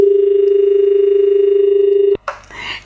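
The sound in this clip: Telephone dial tone after the caller hung up: a loud, steady humming tone that holds for about two seconds, then cuts off abruptly into a brief burst of noise.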